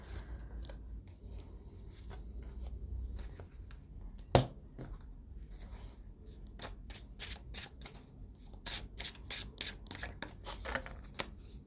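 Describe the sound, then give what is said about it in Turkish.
Tarot cards shuffled and drawn for a reading: soft rustling and sliding of the deck, one sharp slap, then a quick run of many crisp card flicks and snaps. “Sonuç kartı çekeyim.”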